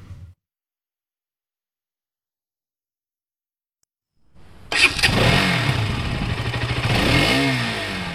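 Motorcycle engine starts abruptly after a long silence and keeps revving in a loud, rough rumble with clattering texture and shifting pitch, alone without talk.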